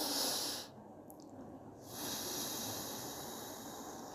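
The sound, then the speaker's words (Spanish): Faint breathing during a breathing exercise, in through the nose and out through the mouth: a short hissing intake, a quiet pause, then a longer, soft, airy breath out. No speech. “Por la nariz ingresaremos el aire y luego lo sacaremos por la boca.”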